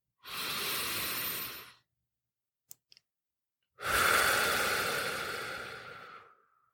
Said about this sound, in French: Je t'invite à prendre une belle inspiration avec ton nez.